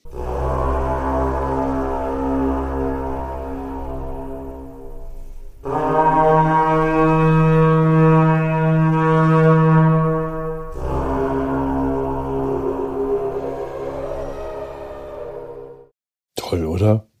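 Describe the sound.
A carnyx, an Iron Age war horn with a dragon-head bell, sounds three long, loud, droning brassy blasts with rich harmonics, each several seconds long. The middle blast is the strongest and highest.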